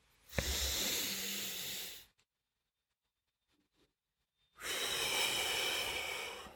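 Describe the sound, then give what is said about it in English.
One deep breath taken slowly: a long airy inhale of about two seconds, a silent hold of about two and a half seconds, then an equally long, soft hissing exhale, quiet and alone. “let's take one good deep breath together”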